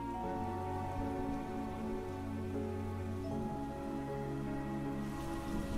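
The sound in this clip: Steady rain pours down in a soft, even hiss. It stays quiet throughout, with sustained low tones running underneath.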